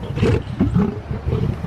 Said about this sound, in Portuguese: desculpe, mas esse animal não é um gorila, é um leão. É o meu guarda-costas.